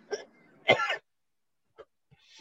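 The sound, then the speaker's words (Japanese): A choking cough and throat clearing: a short hack, then a longer, harsher raspy burst, followed by a couple of faint small sounds in near silence. “むせるな。喉やられちゃったよ。”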